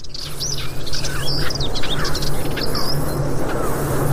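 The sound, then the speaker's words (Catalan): Birds chirp and call in open countryside, a hoopoe and some warblers among them, with short bright tweets scattered over steady insect-like buzzing and a low constant hum. “I comencem a sentir, per exemple, la puput, se sentia també. I alguns tallarols.”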